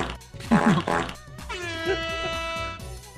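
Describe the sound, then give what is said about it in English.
A comedic fart sound effect: a couple of loud, buzzy blasts, followed by a long sustained tonal drone. “Fart in all caps.”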